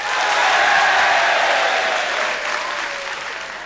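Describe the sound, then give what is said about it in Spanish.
A concert audience applauds Pink Floyd at a September 1971 BBC concert. The clapping and crowd noise are dense and steady, then ease slightly toward the end. “La alegría con la que el público recibe tanto a John Peel como a Pink Floyd dan cuenta del gran momento que vivía el grupo.”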